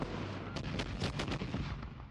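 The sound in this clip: Rifle fire on a rifle range: a fairly faint, rapid run of muffled shots blurred together over a steady rumbling background.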